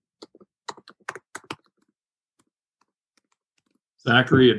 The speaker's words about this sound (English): I just typed it in the chat box there as well.